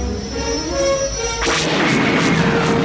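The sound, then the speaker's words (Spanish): A spaceship explodes: a steady hum of effects runs until about halfway, when a sudden loud blast bursts out and swells into a sustained, crackling roar that lasts to the end. “La nave estalla.”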